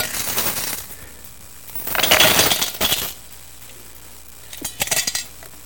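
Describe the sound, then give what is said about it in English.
Coins drop into a collection, clinking and jingling in three separate bursts: a clattering run at the start, a louder one in the middle, and a short scatter of metallic clinks near the end. “Man, you guys give me so much change. Do you hear it?”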